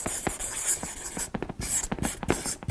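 A pen scratching out a signature on paper, a quick run of short, irregular strokes and scrapes of varying loudness, heard alone.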